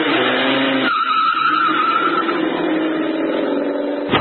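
Tires skid and squeal as a car is driven fast and recklessly. A loud, continuous roar of noise fills the whole clip, with a sustained squealing tone in the middle.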